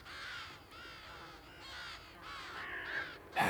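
Harsh, crow-like cawing from birds attacking rabbits, a dense run of overlapping rasping calls at steady loudness that ends in a sharper, louder burst, with no voices.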